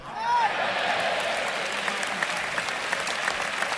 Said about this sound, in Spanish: Bueno, pues se complementó este tercio que el público ovaciona.